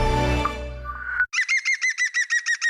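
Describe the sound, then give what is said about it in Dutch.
A green woodpecker calls, giving a rapid, evenly spaced series of loud, ringing, laugh-like notes. The notes follow a different lower, sustained tone that cuts off abruptly. “Ken je het geluid van de groene specht?”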